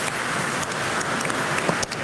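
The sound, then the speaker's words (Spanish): Applause for birthday celebrants at a religious gathering: continuous, evenly dense clapping from many people, holding a steady level throughout. “Un aplauso también a los que están en la casa, felicidades.”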